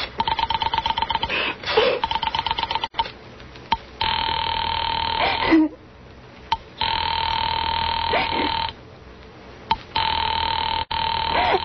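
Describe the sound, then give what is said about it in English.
A telephone being dialed direct: a quick run of rapid clicking pulses at the start, then long, steady line tones that cut off briefly and resume several times. “Operator, try that Murray Hill 4098 number for me just once more, please. You may dial that number direct.”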